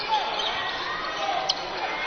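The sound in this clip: A basketball bounces on the court before a free throw, with a single clear thump standing out over a steady wash of crowd noise in the arena.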